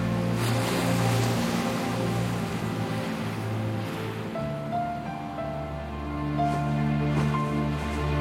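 Sea waves wash steadily in a soft, continuous surf beneath a sustained musical score.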